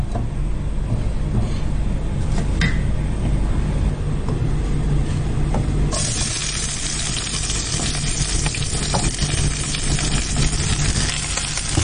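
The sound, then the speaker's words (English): Onions sizzling as they go into heated oil coating the base of a wok, cooked for an African dish, imvange. A steady hiss runs throughout and turns louder and brighter about halfway through, with no talk. “So you just put the onions into the heated oil in the wok.”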